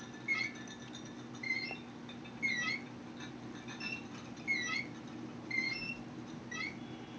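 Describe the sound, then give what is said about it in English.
A loose hanging sign squeaks in a film scene. It has fallen and dangles by a thread. Faint, high squeaks repeat at a steady, swinging rhythm, about once a second, over a low background rumble. “It's time to get a new sign, probably. Like, not just the fact that it fell and it's just hanging by a thread, but the fact that it squeaks.”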